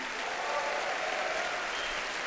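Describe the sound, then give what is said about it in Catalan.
An audience applauds a jazz band of piano, bass and drums at a New York show. The clapping is thick, even and sustained, with no talk over it. “Aquí ser Benjamin compartint els aplaudiments amb els seus companys de banda.”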